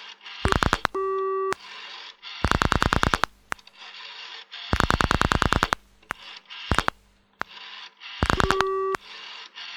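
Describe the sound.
Telephone line tones after dialing a long number: bursts of rapid clicking alternate with short steady tones, repeating several times in a busy-signal pattern, fairly faint and with no voices.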